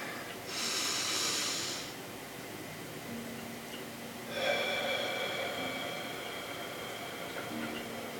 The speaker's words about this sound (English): let's take a deep breath and let it out slow.